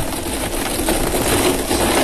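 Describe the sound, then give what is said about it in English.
Birthday lottery balls spinning in a drum, a dense continuous rattling churn that stays loud and steady without pause. “Well, let's spin these birthday balls. Let's do it. Fingers crossed. Good luck, Trish. Here we go. Around and round they go.”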